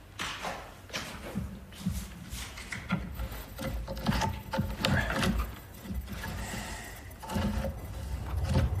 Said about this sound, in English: He moves his hand over the carved wooden surface, feeling its many crevices.